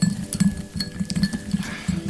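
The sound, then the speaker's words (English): A spoon stirs tea in a cup, making many quick, irregular clinks and scrapes against the sides in a steady stirring rhythm, with no talking. “Did you stir your tea more? You don't stir it up enough. I stir it a lot.”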